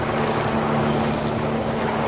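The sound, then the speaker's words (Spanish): A helicopter flying over mountain peaks gives a steady, loud mechanical roar that holds evenly without a break for the whole clip. “Un helicóptero sobrevuela las dos vertientes de los picos, la asturiana y la cántabra.”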